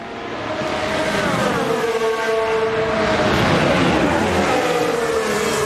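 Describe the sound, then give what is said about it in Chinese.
Two Mercedes Formula 1 race cars on track give off a loud, sustained high-revving engine whine. Its harmonic tones shift up and down in pitch throughout. “两辆梅奔的赛车”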